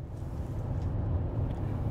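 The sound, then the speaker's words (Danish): Inside a car on the road from DR-Byen toward Kirke Hyllinge, a steady low rumble of engine and road noise. “Jeg sidder lige nu i bilen på vej fra DR-byen mod Kirke Hyllinge”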